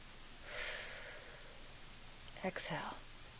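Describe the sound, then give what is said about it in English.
A deep inhale during a breathing exercise: one soft, long, airy breath drawn in, followed later by a short, sharper breathy sound, all quiet. “Okay, I'm focusing on the breath now. Inhale.”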